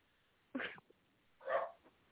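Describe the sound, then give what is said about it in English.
Two short, sharp barks from a small pit bull, with a brief pause between them and no voices around them. “Tell that dog to shut up.”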